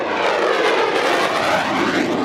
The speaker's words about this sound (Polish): Dla mieszkańców Poznania dźwięk silnika samolotu F-16 nie jest żadnym zaskoczeniem.